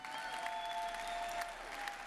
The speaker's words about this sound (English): Would you please put your hands together and welcome Joshua Luke Smith.